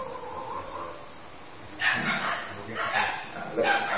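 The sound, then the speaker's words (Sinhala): A dog howls, with a few loud drawn-out cries in the second half, while a voice speaks in the background. “අර බල්ලෙක් ඉන්නවා උරනවා එක අපිට ඇහෙන.”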